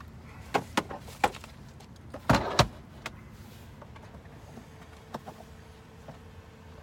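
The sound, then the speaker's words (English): An American-made plot box folding open: a few sharp clicks, then a clustered clack and rattle midway, with scattered softer ticks among quiet gaps. “This is my plot box. Okay. It's made in America. By God. It just folds open real easy like that.”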